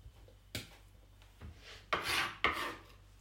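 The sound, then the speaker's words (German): Cheese grated on a coarse grater gives four distinct rasping strokes, each a short, bright, scratchy burst. The strokes are spaced unevenly and stand alone with no talk. “Mit einem groben Reibeisen werde ich jetzt den Käse reiben.”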